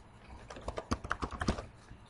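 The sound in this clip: Soft, faint keyboard typing while logging in with a Live ID, a quick run of light clicks in an uneven rhythm.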